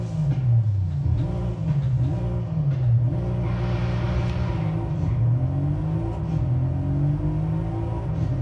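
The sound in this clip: A car engine revving in the racing video game Forza Horizon, a continuous loud drone whose pitch wavers as it accelerates and climbs again toward the end, with no voices.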